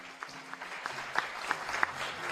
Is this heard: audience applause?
yes